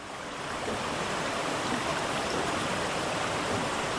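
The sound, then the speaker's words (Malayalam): A wild waterfall heard up close from an iron viewing platform: a steady, dense roar of rushing, splashing water holds at an even loudness throughout, with no pauses. “വന്യമായ ജലപാതത്തെ തൊട്ടടുത്ത് കാണാം.”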